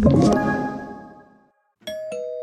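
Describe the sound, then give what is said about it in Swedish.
Doorbell ding-dong chime: a ringing tone fades away, and after a brief silence two bright chime strikes follow, the second one ringing on steadily. “Ikke løp til døra, det ringte ikke på”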